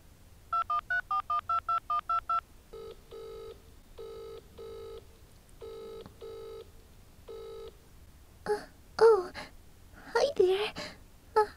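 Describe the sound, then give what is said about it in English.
A telephone number is punched in as a quick run of about eight bright keypad beeps, followed by several longer paired tones, with vocal sounds and rustling near the end. “He gave me his number. I'm going to call him.”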